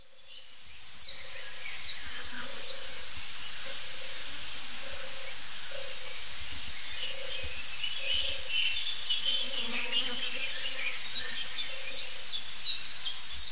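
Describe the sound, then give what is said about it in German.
A turtle dove calls with soft, low purring coos repeated in a steady series, under a constant high hiss of insects and scattered thin chirps from other birds. “Also diese Turteltaube, die hat es wirklich in sich. Dieser Sound, meine ich”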